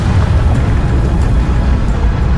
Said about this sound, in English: The pressure erupted in a blast wave, and the planet exploded.